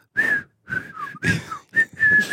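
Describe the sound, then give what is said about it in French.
A person whistling during a rehearsal: a few short phrases of bright, clear, sustained tones separated by brief pauses, with some notes gliding slightly up or down. “je me demande, tu vois, si les gens ils vont siffler. Ben moi j'essaye”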